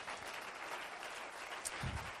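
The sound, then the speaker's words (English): Congregation clapping hands together during a church service, a soft, steady wash of applause that holds at an even level throughout. “Let's clap our hands together.”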